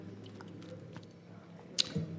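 Sipping and swallowing water to soothe a dry throat: a couple of brief, faint wet mouth sounds near the end over a steady low background hum.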